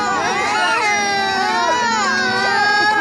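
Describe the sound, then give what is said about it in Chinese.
Hungry young children crying together in a childcare group, some still small enough to need spoon-feeding. Many high-pitched wails overlap into a loud, continuous chorus of sobbing. “你听到了吗？孩子们都饿哭了，你难道要一直饿着他们？”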